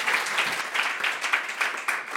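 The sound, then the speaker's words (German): An audience applauds at a live show, just before being told it may sit down again. The crisp clapping pulses in fairly regular surges, giving a loosely rhythmic feel, moderately loud and free of speech. “Einen großen Applaus, ihr dürft euch wieder setzen.”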